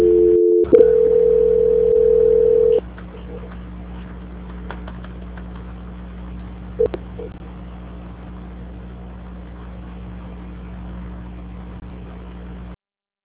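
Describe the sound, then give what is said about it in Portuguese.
Telephone tones play during a call transfer. A steady, held tone sounds first, then gives way to a low, continuous line hum with a brief beep partway through before it cuts off. “Vou transferir essa ligação agora, tá bom? Só um minuto, por gentileza. Tá. Transferência.”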